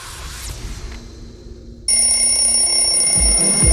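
An alarm clock rings in a radio jingle: after a quieter opening, a loud, shrill, continuous bell ring bursts in abruptly and carries on to the end.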